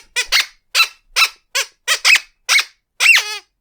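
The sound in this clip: Squeaky fanfare used in place of a drum roll: a rhythmic run of about nine short, loud, high-pitched squeaks, the last one longer and drawn out with a falling tail.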